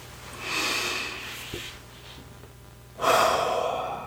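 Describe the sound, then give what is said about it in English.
Two deep, slow breaths taken during a guided mindfulness moment, each a soft, airy rush lasting about a second, separated by a quiet pause, with no talking. “I'd like to invite you to take a few deep breaths.”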